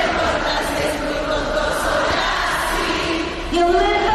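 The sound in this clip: A concert crowd in Barakaldo sings along in unison to a pop song, a dense, loud wash of many voices with sustained melodic lines that carry steadily throughout.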